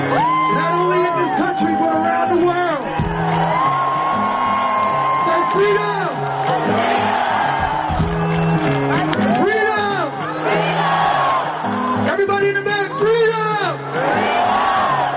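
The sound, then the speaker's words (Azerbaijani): Concert crowd chanting and shouting in unison at a live show: a dense, loud wall of many voices that carries on without a break, with pitch rising and falling. “O səhnədən tamaşaçılar isə meydançadan Freedom, azadlıq deyə çağırış eləyiblər.”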